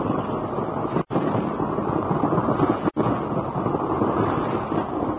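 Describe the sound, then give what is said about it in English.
Rushing water roars as a boat shoots into a dark tunnel with rocky walls. A dense, steady, rumbling roar fills the whole passage and briefly cuts out twice. “The rushing of the waters echoes and reverberates from the rocky walls with a noise like thunder.”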